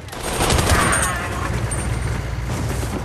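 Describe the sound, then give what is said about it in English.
Gunfire in street fighting in Iraq, fired at the enemy from a moving vehicle: a dense burst of rapid shots, loudest in the first second, then a sustained rattling roar that keeps going to the end. “As Ray drives through the streets, Brad calmly fires at the enemy. A bullet whizzes past Scribe, then Trombley shoots an Iraqi.”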